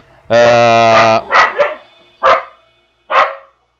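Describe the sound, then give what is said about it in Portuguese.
A dog gives a long, sustained tonal yowl, then four short, sharp barks with gaps between them, loud and clear with no talk. “Hoje os cachorros estão gritando.”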